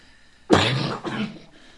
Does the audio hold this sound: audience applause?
no